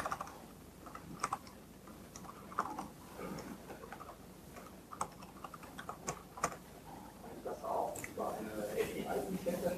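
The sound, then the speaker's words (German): Typing a web address on a computer keyboard: many quick, irregular key clicks with small bursts and pauses, fairly faint and steady throughout. “dass ich einfach eine URL eingebe, wenn ich mal richtig tippen kann.”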